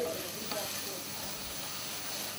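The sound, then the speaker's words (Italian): Red wine sizzling and evaporating in a hot pan with browned meat and soffritto, a steady, dense, fairly loud hiss that continues without a break. “aggiungerle nella pentola del soffritto e rimettere sul fuoco. Versare 200 ml di vino rosso e farlo ben evaporare.”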